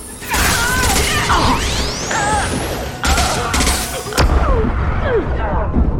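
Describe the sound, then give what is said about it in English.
Rocket blasts and explosions in an action video game, with several heavy booming impacts and a whooshing sweep that rises sharply in pitch, all layered into a dense, loud stretch of combat noise. “It's a lot of rockets.”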